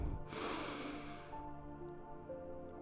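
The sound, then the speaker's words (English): A slow, audible inhale through the nose during a guided deep-breathing exercise, a soft breathy rush lasting about a second, followed by sustained gentle tones that continue underneath. “So breathe in”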